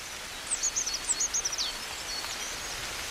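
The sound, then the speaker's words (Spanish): A coal tit sings in winter: a short series of high, thin chirping notes, then one more isolated note. The song is faint over a steady background hiss and rustle. “En pleno invierno, con el frío, un carbonero garrapinos está cantando como anticipándose a la primavera.”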